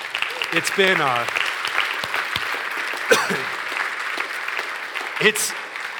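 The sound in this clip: A church audience applauds after a sermon on 1 Corinthians, a dense, steady patter of many hands clapping that holds for the whole stretch, with a few loud cheers and whoops from voices in the crowd rising above it.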